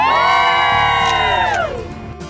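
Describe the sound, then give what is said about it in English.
An outdoor holiday crowd cheers and whoops in a loud, festive roar of sustained voices, with the pitch of the shouts sliding down near the end before fading. “We're so happy that everybody is outside. What a fun, festive group we've got outside. Those holiday crowds are the best.”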